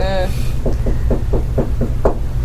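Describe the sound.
Knocking at a front door: a brief voice, then a rapid, evenly spaced run of about seven knocks, each one short, dull and moderately loud.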